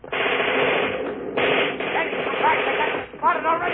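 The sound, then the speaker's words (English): Continuous machine-gun fire rattles in a dense, harsh roar, with men's voices shouting over it. “I'm going after that machine gun.”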